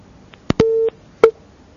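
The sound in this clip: Telephone busy signal after a dropped call: a click, then a steady low beep tone, a pause and a second beep that breaks off, with no voices.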